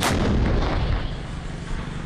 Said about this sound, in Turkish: Saldırıya misliyle karşılık verildi. İşte rejim hedeflerinin vurulma anı.